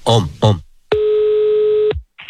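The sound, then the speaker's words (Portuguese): A telephone tone while placing a call: after a brief voice, a steady, unbroken mid-pitched tone holds for about a second and then cuts off, with another sound starting just before the end. “Vou ligar agora pra Janaíra.”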